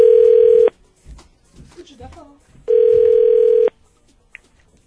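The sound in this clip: An outgoing telephone call rings through as two loud, steady tones at one pitch, each lasting under a second, split by a long pause that holds only faint background noise.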